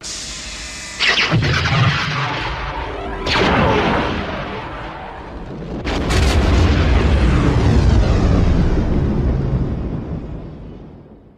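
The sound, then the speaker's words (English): The Death Star superlaser fires and explodes: a sudden loud blast, a second surging wave, then a huge boom whose deep rumble sustains and slowly fades. “I'm gonna say that's the Death Star. Correct for 10.”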